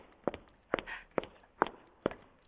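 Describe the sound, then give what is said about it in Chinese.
Five sharp high-heel footsteps strike in an even, rhythmic walking pace, each a crisp click standing out from a quiet background. “你听，我的高跟鞋脚步声多有节奏”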